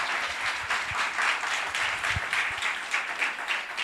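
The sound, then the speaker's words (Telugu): Church audience applauding God, many hands clapping together in a steady stream that swells and dips slightly in waves, with an occasional louder thump. “చప్పట్లు కొడతాం దేవునికి.”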